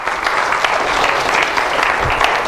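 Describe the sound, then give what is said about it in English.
Steady applause from a gathered audience, a continuous crackle of many hands clapping at a fairly loud, even level with no pauses. “Let's give each and every one who'll be watching by internet today with a wonderful hand of applause in his house.”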